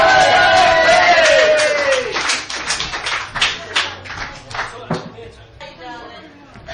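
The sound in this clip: Audience clapping and cheering greet a cabaret act as a voice finishes the introduction over the start. A loud, dense patter of claps then thins out and fades.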